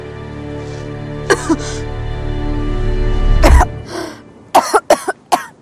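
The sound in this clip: A frail, disheveled woman lying on rocks coughs in a series of harsh, rasping bursts: two early coughs, a longer strained rasp, then a quick cluster of sharp coughs close together at the end.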